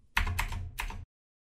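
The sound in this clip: Keys clatter on a computer keyboard as a web search is typed: a short, quiet run of a few quick clusters of keystrokes over a low hum, then silence.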